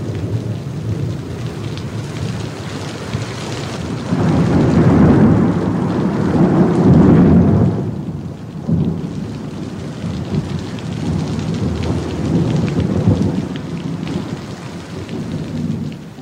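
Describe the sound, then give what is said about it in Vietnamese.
Heavy rain pours at night with thunder. The downpour is a dense, constant hiss, and deep rumbles swell through the middle and return later. “Nhưng nửa đêm, nổi cơn mưa lớn.”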